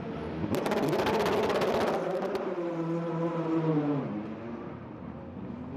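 A race car's engine roars as it leaves the pit lane in an endurance race, a loud, steady drone whose pitch drops and then fades toward the end.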